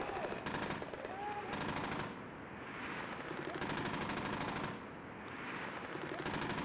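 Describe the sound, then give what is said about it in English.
Machine-gun fire in combat footage: a few rapid bursts of closely spaced shots, each lasting about half a second to a second, separated by steady rumbling background noise. “And you can see little puffs of machine gun smoke that are going back and forth, and you'll constantly hear the firing of the rockets.”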